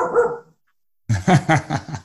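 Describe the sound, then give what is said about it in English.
A female dog barks at passers-by near her house: a short bark, then a pause, then a quick run of several loud barks. “dog barking. That's what's next.”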